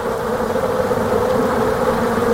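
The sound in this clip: Honeybees buzz as they hang clustered together inside a hive while producing wax, forming a loud, steady, continuous drone that holds an even pitch throughout, with no voices.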